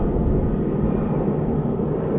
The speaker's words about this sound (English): We hear this airplane flying above us. It has just taken off from the Saha Airport in Bombay.